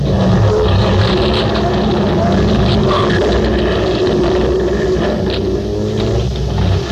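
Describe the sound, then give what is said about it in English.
A car engine roars steadily as the car drives out through the back of a garage, a loud, continuous low rumble with no break for the whole stretch. “I had to drive through the back of the garage or else go out the front.”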